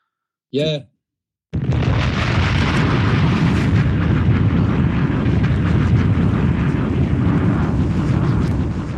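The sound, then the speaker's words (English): Explosions: a brief tonal burst, then a loud, dense, steady roar that rumbles on without a break for about seven seconds. “So, we're back. Everything exploded.”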